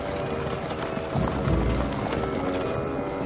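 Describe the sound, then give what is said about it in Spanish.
Hoofbeats of six dark horses pulling a stagecoach along a narrow wooded mountain trail beside a river, a dense, continuous clatter of running hooves that swells slightly louder midway. “Seis caballos oscuros tiran de la diligencia que recorre la ladera arbolada de una montaña.”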